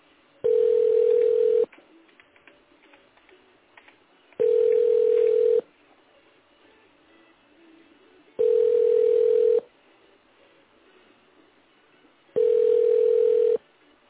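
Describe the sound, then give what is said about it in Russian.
A telephone ringback tone while a call is being placed: four long, steady buzzing tones of about a second each, separated by regular pauses of faint background noise. “Продолжаем дозваниваться. Оставайтесь на линии.”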